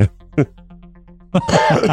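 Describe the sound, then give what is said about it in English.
Coughing and throat clearing from a person: two brief, sharp hacks, a pause, then a longer, harsher run of coughs at the end. “Results in coughing.”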